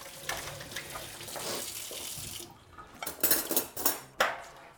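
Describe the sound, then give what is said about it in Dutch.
Water runs from a tap as hands are washed, a steady splashing rush. The flow then stops, and a few sharp clinks and knocks follow. “Hier mijn handen wassen.”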